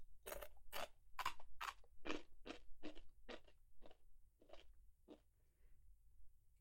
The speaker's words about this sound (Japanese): こうやっておせんべいだけ食べてもいいし